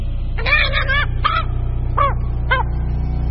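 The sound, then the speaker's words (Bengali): A raven perched in the evening rain caws: a quick run of harsh, croaking calls, then a few single caws spaced apart, over a steady low background hiss. “জিনিসটার উপর বসে আছে একটা দাঁড় কাক।”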